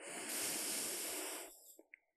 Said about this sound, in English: with your belly, I want you to take a nice deep breath in